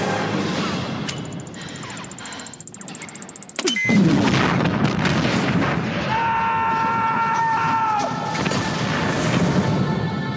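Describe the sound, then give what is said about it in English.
A bridge explodes in a film scene with a sudden heavy blast that cuts into a sustained crashing rumble after a stretch of lower, busy action noise. “It's Beckett with the bridge explodes.”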